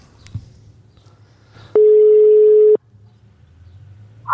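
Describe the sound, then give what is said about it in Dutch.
Ringing tone of an outgoing telephone call: a single steady low beep lasts about one second, then the line goes quiet with only faint background noise and a few small clicks. “Ja, die gaat ook gewoon over. Die zal wel weer niet opnemen.”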